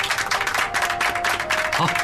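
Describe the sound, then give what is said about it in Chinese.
Applause at a university sports team's dinner, loud and dense, with many hands clapping at once and voices mixed in throughout. “来，大家鼓掌。”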